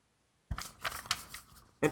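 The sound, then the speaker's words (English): A paper envelope being opened, heard as a run of crisp tearing and rustling bursts over about a second and a half, ending with one sharper rip. “there's just an envelope, and let me see what it... I'm going to open it.”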